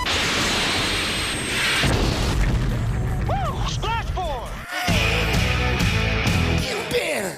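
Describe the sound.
A missile launch and explosion from a fighter aircraft: a loud, dense roaring rush threaded with swooping, whistling tones that holds steady throughout.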